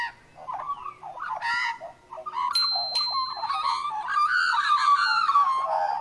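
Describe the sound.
A magpie calling: a continuous stream of warbling, fluting notes that shift up and down in pitch. A thin, high whistle briefly rises above the call.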